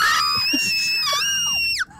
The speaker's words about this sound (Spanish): Es el gran grito.